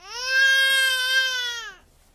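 A baby cries in a single sustained wail of nearly two seconds. The cry is high-pitched and harmonically rich, and its pitch sags slightly as it fades at the end.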